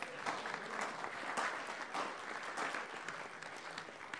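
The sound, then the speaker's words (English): Applause from a convention audience for a person who has just been introduced, dense and sustained clapping that continues without a break. “So give Charlene a great big hand.”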